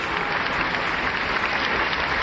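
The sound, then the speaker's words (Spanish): Steady, dense applause from a studio audience during a sports news radio programme, many hands clapping at an even loudness throughout with no voices. “Wow, parece que el aplauso, cuando no estoy en el estudio, el aplauso es más grande y más largo.”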